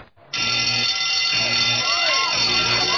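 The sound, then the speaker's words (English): A fire alarm sounds during a fire drill, starting abruptly after a brief moment and then holding a loud, continuous high-pitched ring. “Hey, that's the fire alarm. We gotta get out of here.”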